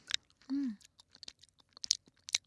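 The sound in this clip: Someone chews a soft gummy candy, making faint, irregular wet smacks and squelches, with a short hummed note near the start.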